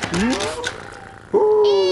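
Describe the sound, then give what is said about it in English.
A cat meows loudly, with a first rising, wavering cry followed by a longer, brighter and louder meow, both with clear harmonic tones. “Who's been a clever little kitty cat and drunk all the milky weepy, eh?”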